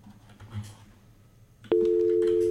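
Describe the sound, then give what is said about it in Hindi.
A steady telephone line tone sounds as a caller connects to a radio phone-in show. Faint low murmuring comes first, then the tone cuts in abruptly and holds loud, even and unbroken to the end. “पहले collar हमसे जुड़ रहे हैं, आइए देखते हैं किसका call है।”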